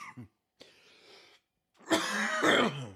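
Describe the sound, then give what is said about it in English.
A person with a lingering cough left over from an illness coughs: a few rough, breathy bursts with a pause between them, then a loud, harsh, throaty cough that stands alone without talk. “Have a horrible cough still. It's just hanging on there from the last time I was sick.”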